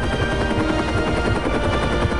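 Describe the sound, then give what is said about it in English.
A machine gunner aboard a Seahawk helicopter lays down cover fire over snowy hills. A continuous, rapid stream of loud rattling shots runs without pause. “Beside them, a machine gunner continues cover fire.”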